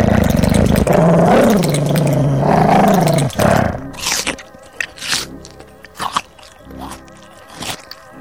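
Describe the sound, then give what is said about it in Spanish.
A deep, gurgling rumble from a long-necked creature holds low and throaty for about three seconds, then gives way to scattered sharp clicks and rustling hits. “Profundo borboteo que no llega a hacerse gruñido palpita bajo el largo cuello de Tula.”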